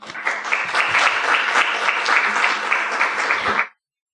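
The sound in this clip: An audience at MCLA applauds to welcome a guest lecturer, a dense, even patter of many hands clapping that holds steady for several seconds and then stops abruptly into silence.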